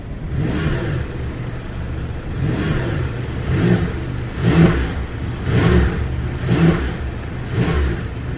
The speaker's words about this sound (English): let's get this new for 2025-26 Porsche 911 T-Hybrid out on the roads here in Dubai in this real-world road test.